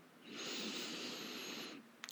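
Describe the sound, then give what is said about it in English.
A long, deep inhale is drawn during a guided meditation, a soft, airy hiss that swells and holds for about a second and a half before easing off, followed by a tiny click. “Now take a deep inhale”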